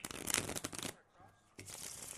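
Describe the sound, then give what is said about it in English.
A deck of political-themed playing cards is shuffled and cut at a table. A dense, crackling riffle is followed by a short quiet gap, then a second stretch of papery rustling. “All right, now we've just cut the deck.”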